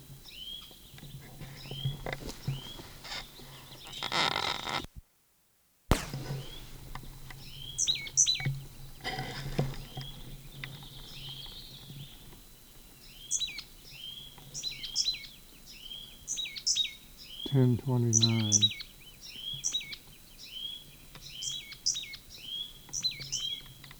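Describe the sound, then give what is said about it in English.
Repeated high, thin bird chirps and short calls from a single bird, many in sequence at a faint level over a soft background hiss. “Same bird.”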